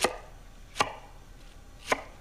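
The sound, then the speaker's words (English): A knife chops red onions as they are trimmed and cut into halves and quarters: three crisp, separate strikes, fairly quiet and isolated, with stillness between them. “What I want to do is take the ends off of our onions like that. Cut them in half, then into quarters.”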